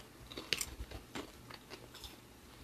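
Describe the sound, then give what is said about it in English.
Faint crunching and chewing as people eat food, with a few soft bites and crunches scattered through an otherwise quiet stretch. “So did this turn into an ASMR video then? No, but we're eating.”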